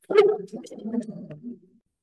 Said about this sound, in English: And that was my dog.